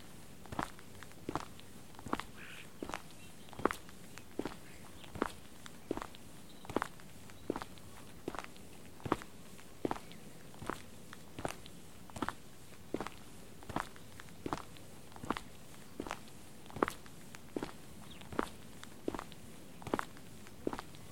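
Footsteps walk steadily along an outdoor path between low path borders. Many evenly spaced, crisp steps repeat at a regular walking pace throughout, fairly clear over a quiet background.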